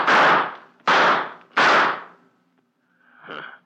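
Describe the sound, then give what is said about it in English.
Gunshots fire at someone: three loud, sharp bangs in quick succession, then a softer fourth burst after a short pause. “Took a couple of shots at me and ran.”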